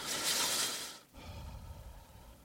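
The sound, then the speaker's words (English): A person imitates creepy breathing: a breathy, hissing draw of air gives way after a brief pause to a lower, rougher exhale, all fairly faint. “Listen to this. This is the creepy way to breathe.”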